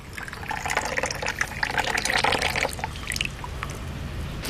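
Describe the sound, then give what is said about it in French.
Water is poured to make matcha tea, a continuous splashing and trickling stream lasting about three seconds that then tapers off into quieter dripping. “Donc là, vous allez mettre de l'eau.”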